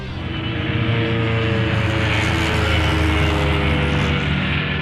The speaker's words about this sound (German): Alliierte Bomber fliegen über Zerbst.